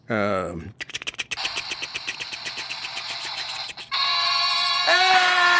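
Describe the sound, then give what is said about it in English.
A comedy show plays a prize-wheel spinning effect: a quick, regular run of ticking clicks, followed by a bright, sustained tonal chime that grows louder near the end. “do you want to do the sound effect and all that stuff that happens when we turn the wheel? We have a sound effect? Yeah. I like the sound effect.”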